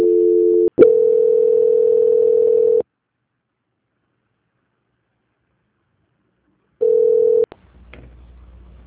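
Steady telephone tone sounding while a call is transferred: a short burst, then a longer stretch of unbroken tone that cuts off into silence. A brief final stretch of tone follows, ending with clicks and low noise.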